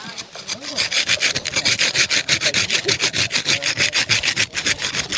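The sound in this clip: Rhythmic scraping from working the surface of a cement, sand and soil planter mix in a workshop: many fast, even rasping strokes, loud and steady throughout.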